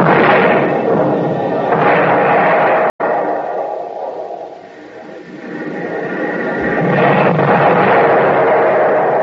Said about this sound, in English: Every time a shell lands, they get closer.